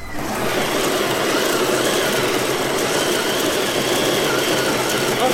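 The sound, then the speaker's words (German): An exercise bike (home trainer) being pedalled gives a continuous, even mechanical whirr with broad hissing noise that starts almost at once and holds steady throughout. “Okay, also ich steige jetzt mal auf den Home-Trainer drauf. So, okay, ich rade jetzt.”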